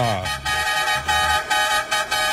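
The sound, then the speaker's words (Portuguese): Loud car horn honking in a run of sustained, bright, buzzy blasts broken by brief gaps, several toots following one another in quick succession. “Ê, buzina danada.”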